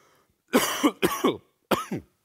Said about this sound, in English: Excuse me. Should have grabbed one last cough drop.